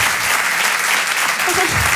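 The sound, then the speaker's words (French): An audience applauds loudly at a talk about a religious television series, a thick, continuous burst of many clapping hands that holds steady throughout. “Applaudissez ceux qui ont fait du catéchisme.”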